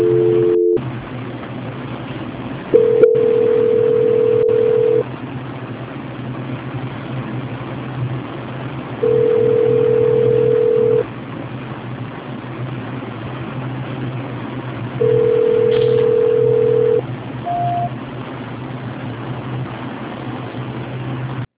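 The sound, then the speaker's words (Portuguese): Telephone call transfer tone on a poor-quality line: a steady mid-pitched beep sounding in two-second bursts, repeated three times with long gaps over a constant low hum, ending with a short higher blip. “Tá, ligação tá horrível. Tá, vou transferir agora. Transferência.”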